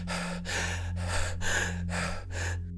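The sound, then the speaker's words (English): Labored gasping from a woman in pain who clutches her chest and cannot catch her breath. Six rough, breathy gasps follow one another at a steady rhythm over a low, constant hum. “She clutches her chest in pain. Sarah stumbles into the master bedroom and falls to the ground. She can't catch her breath.”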